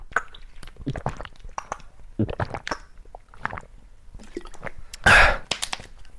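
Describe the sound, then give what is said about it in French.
Drinking water from a plastic bottle: a run of wet gulping and swallowing sounds, followed near the end by a short, loud burst. “on va mettre une bouteille d'eau en plastique à la poubelle, mais pour cela, il faut d'abord la boire.”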